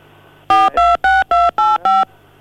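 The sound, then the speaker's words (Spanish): Telephone dialing tones: six steady keypad beeps in a quick, even sequence, each about a fifth of a second long with short gaps, over a faint steady background tone. “Eh, no, ahí nomás están discando.”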